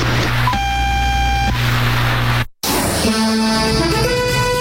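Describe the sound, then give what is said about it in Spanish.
Radio time signal tone from the Cajigal Naval Observatory in Caracas, Venezuela: a single sustained buzzy beep about a second long over noisy radio hiss, followed by a brief dropout and more hiss. “Al oír el tono serán las 19 horas, 0 minutos, 0 segundos.”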